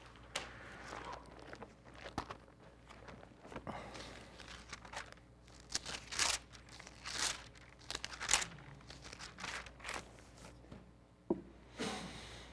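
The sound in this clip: Crinkling, papery rustle of an audience turning Bible pages to Deuteronomy 7:9, heard as many overlapping crisp flicks and crumples, uneven and fairly soft throughout, with no talking.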